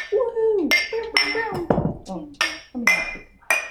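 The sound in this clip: Glasses clink together in a toast over homemade fermented pop, a few sharp bright clinks scattered among lively overlapping voices.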